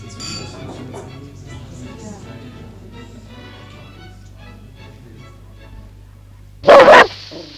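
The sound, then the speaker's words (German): A dog gives a short, sharp burst of barking, loud and sudden, near the end, after several seconds of low, quiet talk. “Morgen bringe ich dir den Hund in die Wohnung von Oberleutnant Lukas.”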